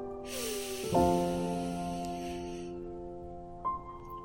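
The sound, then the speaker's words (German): A deep breath drawn in during a guided breathing exercise: a long, airy hiss that swells and then thins out over steady, sustained background tones. “Atme ein und wieder aus. Und wieder ein.”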